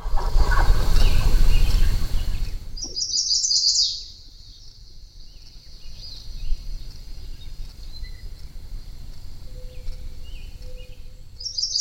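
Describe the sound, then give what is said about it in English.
A barn swallow sings in a burst of high, twittering chirps, then fainter scattered twitters, after an opening stretch of low rumbling noise. “Barn swallow.”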